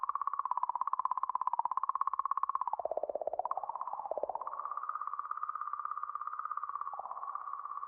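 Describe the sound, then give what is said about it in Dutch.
An eerie, strange tone recorded by a spacecraft at comet 67P after its August 2014 arrival: a faint, continuous buzzy hum with a fast fluttering pulse, sagging lower in pitch midway before settling back to a steady drone. “In augustus 2014 kwam het aan bij de komeet en nam het dit vreemde geluid op.”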